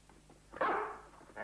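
A house dog gives one fairly faint, sharp bark as guests arrive, and a second bark begins just at the end.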